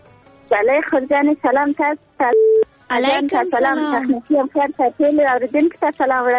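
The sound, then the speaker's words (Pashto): A single short electronic beep marks a telephone call being connected on a radio phone-in, falling in a brief pause between stretches of a man's continuous speech. “نو ور به شو اړیکه به راواخلو چې څوک دی”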